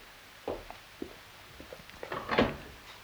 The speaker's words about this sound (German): Da wir schon davon sprechen, öffnen Sie doch bitte jenen Wandschrank.